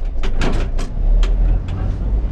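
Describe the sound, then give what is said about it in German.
An old, fully mechanical railcar with hard wooden bench seats rumbles along under a deep, constant drone, while short high squeals and rattling jolts cut in repeatedly. “Es quietscht, ruckelt und zuckelt. Die Sitzbänke der alten Triebwagen sind aus hartem Holz.”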